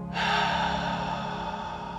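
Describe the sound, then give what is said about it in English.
A slow guided breath, inhaling through the nose and exhaling through the mouth, heard as one long, steady, airy rush that starts abruptly and fades slightly toward the end. No one speaks. “Now take an inhale through the nose. And exhale mouth.”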